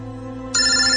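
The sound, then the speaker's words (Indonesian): A mobile phone rings: a loud, bright ringtone starts sharply about halfway through and holds steady after a quieter stretch of low, even hum. “handphone Asma berdering.”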